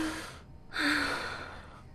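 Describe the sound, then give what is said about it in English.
A really deep breath is drawn in as part of a handshake demonstration: a breathy rush of air that eases off, then swells louder and holds before slowly fading. “You take a really deep breath, like,”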